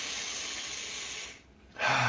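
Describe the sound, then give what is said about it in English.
A deep inhaled breath sounds as a long, steady, airy hiss. It fades briefly, then a fresh burst of breath noise follows, with no talk. “it's important to stop, practice the pause, take a deep breath in,”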